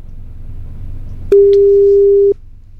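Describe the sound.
A single steady telephone tone sounds on an unanswered mobile call. The clear mid-pitched beep lasts about a second over a low background hum, then cuts off.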